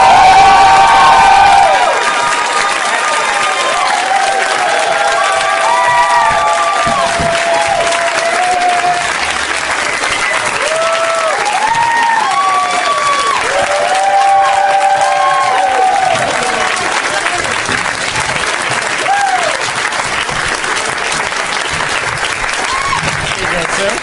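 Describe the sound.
An audience cheers and applauds as guests are welcomed onto a stage. Loud, steady clapping runs throughout, with shouts and whoops rising above it.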